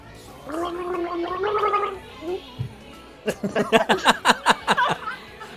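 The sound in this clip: Gargling a Christmas song: a wobbling, pitched, bubbling tune is followed by a rapid run of about ten loud, choppy gurgling bursts.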